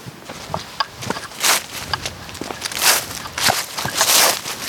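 Footsteps of people walking through woodland among ivy-covered trees, a continuous run of uneven crunching and rustling steps on the forest floor, many footfalls at a steady walking pace.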